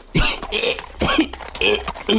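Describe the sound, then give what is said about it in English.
A voice imitates a pony wheezing and coughing aggressively as if choking on something: a few harsh, raspy bursts, strongly voiced and uneven in rhythm, with no clear words between them. “He starts coughing more and more aggressively.”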